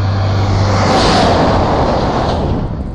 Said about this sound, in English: Big Shell Road train. Three long trailers, tanker just went past.